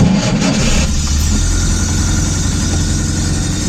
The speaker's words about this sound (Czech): A takhle to znělo, když jste tu 120 nastartovali.